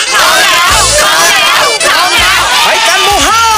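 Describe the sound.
A fan club crowd cheers for a performer named Joey: loud, high-pitched screams and shouts in overlapping waves, sustained without a break.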